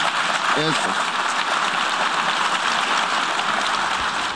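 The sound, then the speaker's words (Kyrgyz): Diplomats applauding in the UN General Assembly hall after a vote result is announced: a thick, sustained wash of clapping from a large crowd, with a brief voice rising through it near the start. “Добуш берүүнүн жыйынтыгы жарыяланганда залдагы дипломаттар бир топко чейин кол чаап турушту.”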